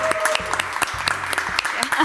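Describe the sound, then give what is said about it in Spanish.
An audience applauds with dense, steady clapping that goes on without a break for the whole of the short clip. “Un aplauso, por favor.”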